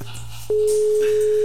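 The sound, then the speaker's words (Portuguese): A phone call rings out while waiting for someone to answer. After a brief low hum, a single steady mid-pitched ringback tone starts and holds, loud and unbroken, to the end. “vamos ver se alguém vai atender, mano. Se alguém da rádio já está ouvindo a rádio.”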